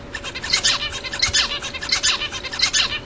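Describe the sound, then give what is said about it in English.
Song of the Australian zebra finch, with the male singing a quick, steady run of bright, buzzy chirps repeated many times. The song is fairly loud over a low, steady background hiss. “That's the song of the Australian zebra finch.”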